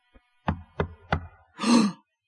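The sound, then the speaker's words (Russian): Three firm knocks on a door, evenly spaced and alone, followed by a short, broad rushing burst of noise. “Ой, стучат. Кто-то к нам пришел.”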